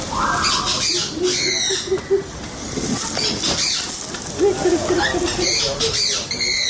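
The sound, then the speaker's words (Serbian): Hissing spray of water from a hose as a zoo worker showers tropical parrots with fluorescent green plumage. A steady, loud wash of spray runs throughout, broken by a few shrill squawks and chirps from the birds. “Kada dugo nema kišnih dana, tropskim papagajima dobro dođe i obično tuširanje. Dok ih radnik Beogradskog zoološkog vrta crevom poliva svežom vodom, nekoliko ptica fluorescentno zelenog perija strpljivo čeka svoj red za osveženje.”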